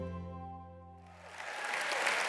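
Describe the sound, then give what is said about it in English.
Audience applause welcomes a pastor and author to the stage, swelling into a steady, dense clatter of many hands after a sustained musical tone fades away. “And so today, I want you to put your hands together and welcome our friend Ted Cunningham to the stage.”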